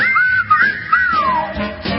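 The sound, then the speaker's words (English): A relaxed music piece features a clear, bright human whistle carrying a lilting melody. The tune bends up and down and then glides smoothly downward, standing alone and loud throughout the short passage. “What's this music? It's a frequency. Just people, some drums, snapping and whistling.”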